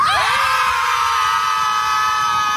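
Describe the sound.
A group of people screaming together outdoors at a scream club, a loud, sustained mass of high, overlapping voices that holds steady for the whole clip.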